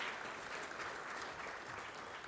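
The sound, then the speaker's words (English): A round of audience applause honours several people at a gathering: a soft, continuous wash of many hands clapping at an even level throughout. “Let's just give them a round of applause again.”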